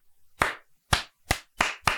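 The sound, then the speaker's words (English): A slow clap from a single pair of hands: five sharp, separate claps with silence between them, the gaps shortening slightly so the beat quickens toward the end. “I mean, slow clap.”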